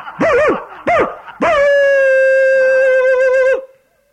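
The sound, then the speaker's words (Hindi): A dog gives two short, rising-and-falling yelps, then a loud, long, steady howl that holds its pitch for about two seconds before cutting off abruptly, leaving quiet. “देखो देखो, कुत्तों ने भौंकना शुरू कर दिया।”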